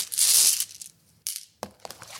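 A bag of coloured glass pieces is shaken and then opened. A loud, sustained crunching rattle comes first, followed by a few shorter crinkling and clinking bursts.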